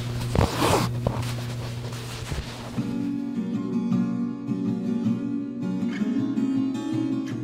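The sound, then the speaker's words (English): Soft swishing rasps of thread drawn through a quilt in hand quilting with a needle and a metal-tipped pushing thimble, a couple of brighter pulls early on, then quieter rustling over a steady low hum. “I have a pushing thimble with a metal tip, and that helps push the needle through. That drawing the thread through the quilt is just one of the most satisfying sounds to me in the whole world.”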